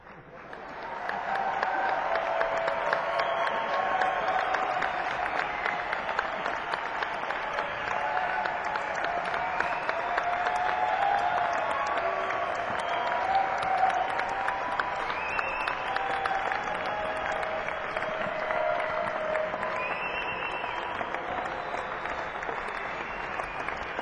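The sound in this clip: A concert audience applauding and calling for an encore: sustained, even clapping from a large crowd that rises quickly and then holds at a steady level throughout the long stretch.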